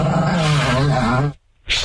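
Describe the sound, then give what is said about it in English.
A dog kept shut in a tiny room growls in a long, wavering rumble for over a second, then falls silent before a short, sharp burst near the end. “Listen to that dog. Now the dog's docile.”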